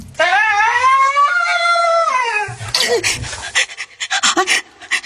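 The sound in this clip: A dog gives a long, high, wavering whine, then breaks into quick, breathy, uneven panting that carries on to the end.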